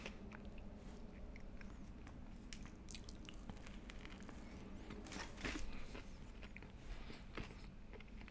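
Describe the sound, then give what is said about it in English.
Someone eats fresh fries: soft, faint crunching and wet chewing with many small bites and squishes, no talking. “I know you'll never say no to fries. I'm pretty sure they're fresh. No, they taste fresh.”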